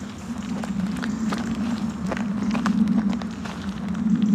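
Footsteps of people strolling very slowly during a forest-bathing walk, a steady run of soft, irregular steps over a constant low hum.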